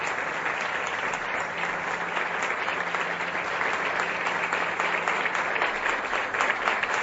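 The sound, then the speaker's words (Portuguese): Steady applause from an audience at a spiritual gathering: many hands clap densely and evenly for about seven seconds without a break, with no clear speech over it. “Uma salva de palmas, nosso velho irmão doutor Bezerra de Menezes”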